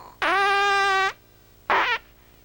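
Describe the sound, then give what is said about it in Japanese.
A comic fart sound effect in an animated scene: a long, steady, buzzy tone, a short pause, then a second, much shorter burst. Both are loud and heard alone, with no talking. “おならしたな。”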